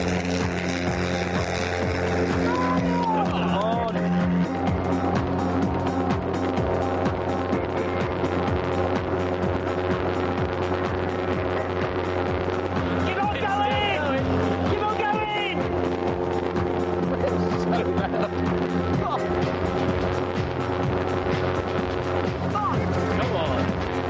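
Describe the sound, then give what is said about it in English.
Engine drone of a car pulling away from a drag-racing start line on a first run at about half throttle, a loud sustained buzzing roar with a steady pitch throughout. “OK, destroyers, it's battle stations. On the green light, let's burn some gas. Bruce accelerates smoothly off the start line and starts rocketing.”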